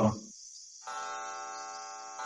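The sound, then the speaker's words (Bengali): A grandfather clock on the lower stairs strikes eleven at night. Two faint, resonant chime tones are heard: the first rings on steadily after a short silence, and a second strike joins near the end. “ঢং ঢং করে নিচের সিঁড়ির grandfather ঘড়িতে ১১টা বাজতে শুনে বাতি নিভিয়ে শুয়ে পড়েছি।”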